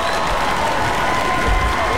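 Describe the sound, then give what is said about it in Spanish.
Applause on a radio morning show, a short burst of steady crowd clapping with a light cheer, even in loudness for about two seconds. “Aplauso para ti.”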